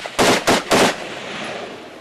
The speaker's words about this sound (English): And then gunshots.